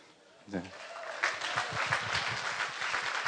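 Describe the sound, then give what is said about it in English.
Clapping from a church audience, joining in praise to God during a service: a voice is heard briefly at the start, then rhythmic clapping builds and carries on, steady and moderately loud, to the end. “And if you want to go Pentecostal and clap for God for that, you can totally do that.”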